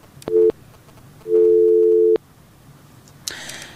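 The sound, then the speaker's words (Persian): A telephone busy signal follows a dropped call: two steady, low beeps, a short one and then a longer one, separated by a pause. A brief burst of noise comes after them. “خب تماس ها قطع شده میره.”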